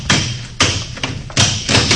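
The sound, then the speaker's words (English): Heavy thuds as a lock at a newspaper office is smashed open, a few loud, sharp blows spaced unevenly and heard alone with no talk. “Smash that lock.”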